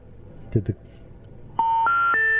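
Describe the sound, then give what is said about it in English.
A telephone line tone after a radio call-in caller hangs up: a short bit of voice, then a loud, steady electronic tone that steps up in pitch three times and holds to the end. “Whoops. I guess the caller hung up. Scared him off pretty quickly.”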